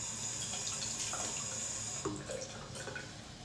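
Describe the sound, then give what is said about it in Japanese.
Tap water runs while hands are washed: a faint, steady stream into a sink, with a few brief splashes and a shift in the flow partway through. “ちょっと手洗う。”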